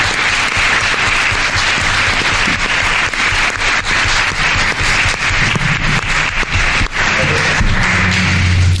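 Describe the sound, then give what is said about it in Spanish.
Audience applause at the close of a panel discussion: a long, dense and loud burst of clapping that holds steady for about nine seconds with no break. “Vamos a brindarles un gran aplauso por este tertulia caramelo.”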